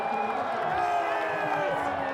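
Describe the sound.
Spectators at a bath race in Santon cheer a run: crowd noise with scattered clapping and raised voices sits under tonal, humming sounds, fairly quiet and even throughout.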